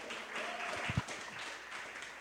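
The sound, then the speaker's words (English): Applause from an audience at a comedy exposition as a comedian is introduced. It is a short, fairly soft wash of clapping with a couple of sharper hand claps near the middle. “Ladies and gentlemen, please put your hands together for the one, the only Mr. Curtis Cook, everybody.”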